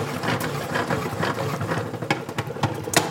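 Salad spinner whirling wet salad greens dry, a steady mechanical whir and rattle with a few sharper knocks toward the end.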